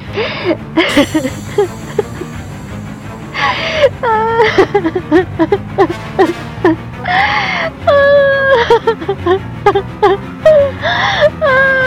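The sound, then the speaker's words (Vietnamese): A woman sobs with her head bowed, breaking into repeated wailing moans and whimpers with a wavering pitch, loud and separated by brief pauses. “Cô gục đầu khóc nức nở.”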